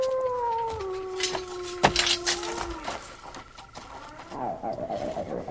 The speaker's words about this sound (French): Écoutez, sont-ce là des chiens ?